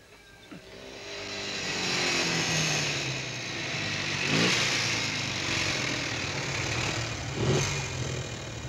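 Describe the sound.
Engine of a German car that keeps failing and won't run properly, heard as a steady, fairly faint droning hum with a couple of brief surges, no voices.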